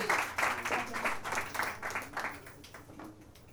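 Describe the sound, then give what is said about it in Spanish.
Applause from the audience at a poetry reading, a moderate patter of many hands clapping that holds briefly, then thins and fades away toward the end. “Un aplauso para Juan Pedro.”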